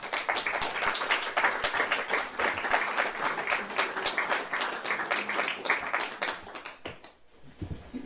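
Audience applause welcomes a woman to the stage to read: dense, steady clapping from many hands that carries on for several seconds before thinning and fading near the end.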